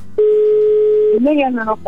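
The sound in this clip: An outgoing telephone call gives a ringing tone: a single steady, even-pitched tone lasting about a second, followed by a voice talking.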